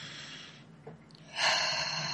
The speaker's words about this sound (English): So I want you to take a deep breath in